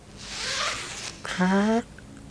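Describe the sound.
A single-layer tent zipper is pulled open in one quick, rasping stroke, followed by a short voiced sound.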